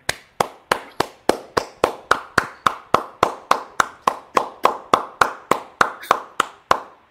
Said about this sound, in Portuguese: Vamos bater palma pro Chagas Bola?